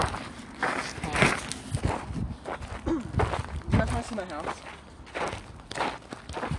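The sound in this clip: Footsteps of people walking together at a steady pace, many overlapping steps, with voices talking over them at times.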